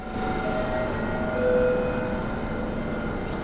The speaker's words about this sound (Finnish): Pociąg Express Intercity